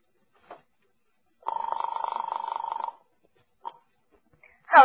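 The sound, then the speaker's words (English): A telephone call is dialed to an apartment: a soft click, then a steady pulsing buzz tone lasting over a second, followed by another short click and a brief burst of sound at the very end. “As I dialed Daisy's apartment, I was hoping she'd be home.”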